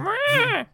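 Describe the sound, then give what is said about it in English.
A voice imitates a PlayStation starting up with one brief, sustained hummed tone that swells, wavers in pitch and then falls away, with a short extra vocal sound just after. “That's the sound of a PlayStation starting up,”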